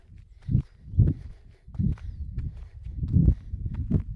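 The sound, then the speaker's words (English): Footsteps of someone skipping outdoors: many soft, low thuds in an uneven rhythm, some heavier than others, with no talk. “And lastly, a bit more skipping. Off we go.”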